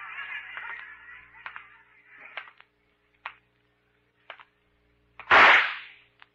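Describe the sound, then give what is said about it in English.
A single loud, sharp gunshot fired at someone in a radio drama bursts out near the end, preceded by a few faint, brief clicks in otherwise quiet surroundings. “You ought to be more careful with that gun, Pete. You almost hit me.”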